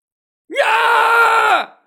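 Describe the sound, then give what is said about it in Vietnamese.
People scream in terror after a deadly blast. A loud, sustained, harmonic cry starts abruptly with a rising onset, holds a steady pitch for about a second, then cuts off. “Mọi người xung quanh đều hét lớn, sắc mặt từng người đều trắng bệch.”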